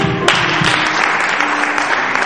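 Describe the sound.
Congregation applause acclaiming God during a church service, loud and dense clapping that stays steady for over two seconds, with a faint sustained voice tone mixed in.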